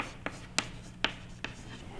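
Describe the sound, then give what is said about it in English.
Handwriting: a few short, scratchy pen strokes spaced out in an irregular rhythm, faint against a steady low hum. “Well, I'll write it as three quarter.”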